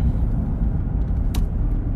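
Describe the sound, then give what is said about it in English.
A loud car drives past outside, heard as a dense, steady low engine rumble that holds throughout without a clear swell or fade. “I'm sorry, that was like a really crazy car that's obviously an out-of-towner, because we're heading towards Memorial Day weekend.”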